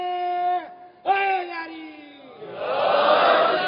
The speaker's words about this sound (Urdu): میں چاہتا آپ ایک نعرہ حیدری کہہ دیں بی بی کے نام پہ.